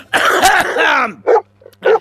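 A man coughs: a rough, voiced throat-clearing rasp, then two short harsh cough bursts separated by brief silence.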